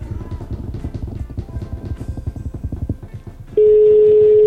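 A phone call being placed: a rapid train of low, even pulses runs for about three seconds, then a loud, steady telephone tone cuts in and holds unbroken to the end.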